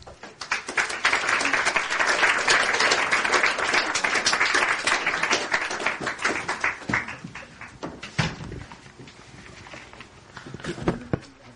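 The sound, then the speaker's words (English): Audience applause greets performers arriving for a performative poetry reading, a dense burst of clapping that holds for several seconds, then thins to scattered claps and faint footsteps. “So please, everyone, welcome Vani Cappeldeo and Jeremy Hardingham.”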